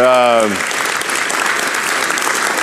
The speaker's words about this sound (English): Would you guys put your hands together and welcome these 8 or 9 students that are right here?